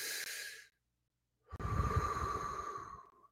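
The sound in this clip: A person takes a deep breath: a short, airy breath, a brief pause, then a longer and fuller rush of air. It is fairly quiet, with no talk.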